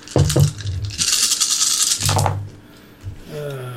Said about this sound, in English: Oh, that's going to be a lot of damn dice.